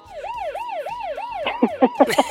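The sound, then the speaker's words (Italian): A police siren wails in about four smooth rising-and-falling cycles, loud and even, then gives way to several short, punchy tonal bursts. “Sirena di pronto polizia”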